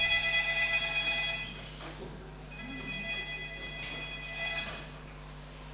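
An alarm clock rings with a high, bright electronic tone, loud at first, then quieter, then rising again in a second burst before dropping off.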